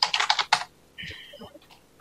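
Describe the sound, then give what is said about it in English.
Typing on a computer keyboard: a quick burst of several crisp key clicks, then a pause and a few softer clatters and taps. “Do you want me to type that in? make sure that we uh, don't have any other questions here. Yes. We can go ahead and type it in.”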